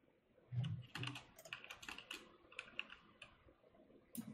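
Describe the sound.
Quick, faint keystrokes on a computer keyboard patter in an irregular stream of light clicks, with a few heavier taps near the start and end.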